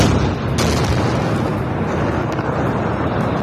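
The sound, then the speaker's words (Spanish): A deep, heavy rumble from an Israeli bombing strike on Beirut. The loud, continuous roar fills the whole clip without easing, and no voices are heard. “Este es solo uno de los muchos ataques israelíes sobre Beirut de esta misma madrugada”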